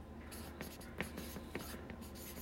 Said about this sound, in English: I'm gonna write that source label printing.